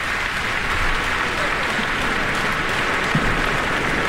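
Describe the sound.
Sustained concert-hall applause for the choir conductors and the orchestra's wind players, a steady dense roar of clapping from the audience, with a man's voice talking over it throughout.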